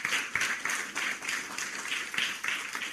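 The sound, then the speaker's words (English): Fairly quiet audience clapping to welcome a guest onto a stage at a leadership talk, with a regular pulsing rhythm of repeated bursts that carries on steadily throughout. “Give him a hand, make him feel welcome.”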